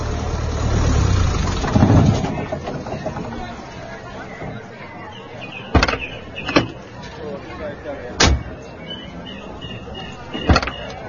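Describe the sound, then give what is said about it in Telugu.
A car arrives with its engine running, a low steady hum under the chatter of a gathered crowd, with a few sharp knocks breaking in later. “అదిగో car చప్పుడవుతోంది కూడా.”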